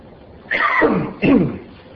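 Two short, rough bursts of coughing and throat clearing from a person with a tickle in the throat. The first is slightly longer, and a brief pause separates them against a quiet background.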